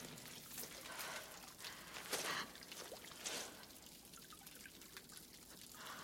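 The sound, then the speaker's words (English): Water trickles down a cave wall into a small stream, a faint, continuous watery hiss with a few brief, brighter splashes. “Sarah runs a hand over a face of the cave where water is trickling down and forming a small stream.”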